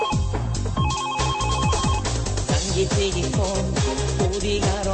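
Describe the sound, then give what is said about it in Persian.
A mobile phone ringtone plays a loud electronic melody, with bright repeating notes and quick sliding tones that carry on without pause. “زنگ تلفن”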